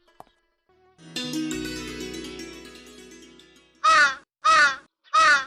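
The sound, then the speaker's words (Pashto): A crow caws three times, each call loud, harsh and evenly spaced, coming after a fading ringing tone that dies away into quiet. “کارغه خو د میلمه زیری روړو.”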